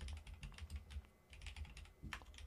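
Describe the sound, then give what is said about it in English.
Typing on a computer keyboard to enter search terms: many quick, uneven key clicks in bursts with a short pause midway, faint and with no talk. “I just typed in XFL media credentials.”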